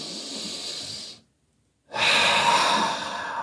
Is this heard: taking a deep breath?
yes